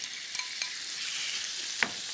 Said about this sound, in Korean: 후에 센 불에 기름을 살짝만 달궈줬고요. 바로 오징어 먼저 한번 볶아주도록 하겠습니다.